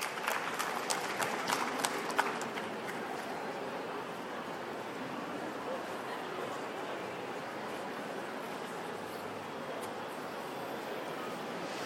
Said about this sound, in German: Einen großen Applaus bitte.